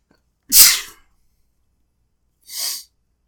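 One loud, explosive sneeze is followed about two seconds later by a quieter, breathy exhale, with silence around both.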